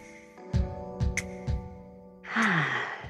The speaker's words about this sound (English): that breath, that fresh breath was very necessary. That inhale, that exhale was very,